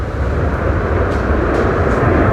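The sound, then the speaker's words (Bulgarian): F-16 fighter jets taking off from an air base produce a steady, dense, low rumbling roar that holds at an even loudness throughout, with no breaks or distinct separate events. “Току-що и втората двойка изтребители излетя тук от авиобаза граф Игнатиево. Първи във въздуха се извисиха изтребителите F-16, току-що това направиха и МиГ-29”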